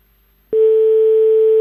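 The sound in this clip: A telephone ringback tone on an outgoing call: one steady, unbroken ring tone starts after a short silence and holds evenly to the end, with no talk.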